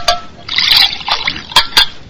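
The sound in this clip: Water being poured in a short, bright, splashing stream lasting about a second, with a few brief sharp knocks around it.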